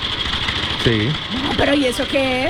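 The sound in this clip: A person vocally imitates a motorcycle engine with a worn-out carburetor, making a buzzing, sputtering drone with short revving swells while other people talk over it.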